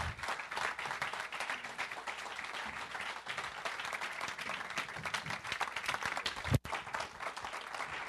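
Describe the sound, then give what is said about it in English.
An audience at a church service applauds, a dense, even wash of many hands clapping that holds steady from start to finish. “Will you put your hands together for them and welcome them?”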